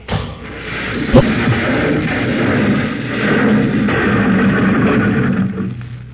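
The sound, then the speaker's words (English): An explosion blasting a cable: a sharp bang followed by several seconds of loud, steady, rumbling roar. “I'll blast the cable when he's safer ground.”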